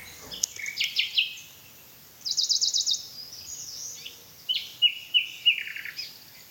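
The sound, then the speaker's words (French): Forest birdsong: high, thin chirps and trills come in several separate bursts, with quiet pauses between phrases over a faint, steady background. “je mets en arrière-fond des sons relaxants de la forêt, des chants d'oiseaux”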